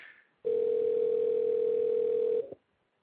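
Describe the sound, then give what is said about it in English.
A telephone dial tone hums while a caller is being rung back. It is a steady, unbroken mid-pitched tone lasting about two seconds over a soft hiss, then it cuts off abruptly. “let's see if we can get George back on the line here.”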